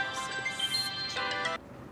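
A telephone rings with a bright, melodic electronic ringtone of clear tonal notes that changes pattern partway through, then cuts off sharply near the end, leaving a faint background hum.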